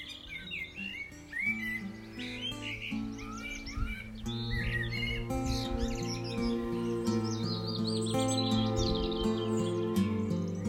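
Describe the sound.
Many birds chirp and sing in the hills in spring, a busy chorus of short high calls and warbles over steady, sustained low musical tones.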